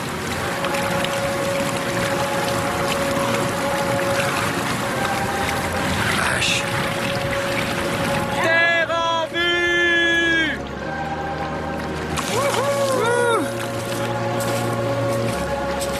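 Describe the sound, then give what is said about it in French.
Water churns and washes around a pedal boat taking on water on a lake, a continuous rough, noisy rush with wind, and brief voices breaking in partway through. “On est obligé de faire marche arrière parce que si on va vers l'avant, l'eau elle rentre et on fait du sur place.”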